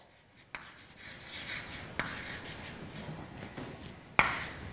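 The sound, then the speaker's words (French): A lecturer writing an equation on a board, with soft scratchy strokes broken by three sharp taps spread across the stretch, the last one the loudest. “Donc je vais écrire ça comme ça.”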